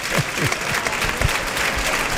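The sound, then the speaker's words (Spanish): Ovation from a bullfight crowd: sustained applause and crowd noise at a steady, fairly loud level, with a few heavier low thumps scattered through it. “Ahí está la ovación.”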